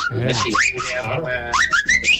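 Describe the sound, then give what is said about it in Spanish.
A man whistles a melody of bright, sliding notes that sweep upward in pitch, with a radio playing faintly in the background. “Está grabando, está silbando el hombre.”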